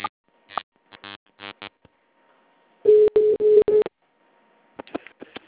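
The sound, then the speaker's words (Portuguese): Keypad tones on a town hall's automated phone line while an extension is dialled: a quick run of four short, even beeps over line hiss, with other brief electronic bursts before and after. “Tecle o ramal desejado.”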